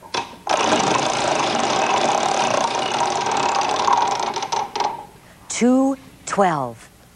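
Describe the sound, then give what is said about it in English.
Prize wheels spin on a children's educational game show, giving a long, steady ratcheting clatter for several seconds that then stops, followed by a voice talking. “Spin the wheels”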